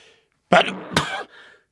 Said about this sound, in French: Pardon, voilà, un éternuement.